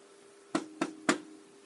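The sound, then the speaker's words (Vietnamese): Three sharp knocks on a door, evenly spaced and fairly loud against a quiet, steady background, with no voices. “Tiếng gõ cửa vang lên.”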